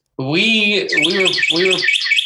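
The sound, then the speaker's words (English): A Carolina wren sings in rapid runs of high, repeated chirping phrases. The song is loud and continuous, overlapping a low voice for most of its two seconds, then briefly heard alone at the end. “What the hell was that? Is that the bird you were talking about? He's back.”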